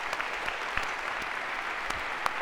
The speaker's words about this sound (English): A round of applause, if we could, for our volunteers.